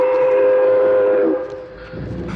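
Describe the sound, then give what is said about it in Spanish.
A train whistle blows one long, steady, loud tone as the train stops at a station, then cuts off, leaving a lower, quieter rumble. “¿Han detenido el tren para usted? Aquí sería una grosería no detenerlo.”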